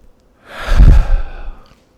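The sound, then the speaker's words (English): One deep breath during a tapping exercise: a long, audible breath that swells to a loud, sighing peak and then trails off alone. “Under the nose, nice deep breath.”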